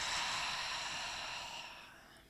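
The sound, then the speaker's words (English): A long, breathy exhale follows a deep breath, taken with eyes closed in a calm breathing exercise. The airy rush starts strong and fades steadily over a couple of seconds into near quiet. “So we'll take a deep breath in with our eyes closed. And we'll let it all go.”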